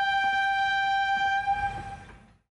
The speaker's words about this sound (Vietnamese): Lúc này, chiếc tàu hỏa kia ù ù lao tới.